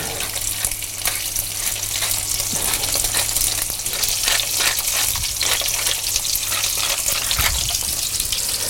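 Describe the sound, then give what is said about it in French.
Foie gras fries in a hot pan with a steady, dense sizzle and crackle that continues throughout, over a faint low hum. “Voilà, vous voyez l'eau, quand elle, quand elle est partie, c'est que la poêle est chaude. On peut mettre le foie gras.”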